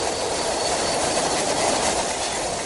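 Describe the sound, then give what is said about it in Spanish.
A train arrives at a red signal near a bridge with a loud, steady rumble and rattle of wheels over a broad hiss. The level stays even throughout, and no distinct brake squeal stands out. “va a comenzar el rock and roll porque está llegando el tren. La luz roja del semáforo está encendida y ahora a ver si frena el convoy”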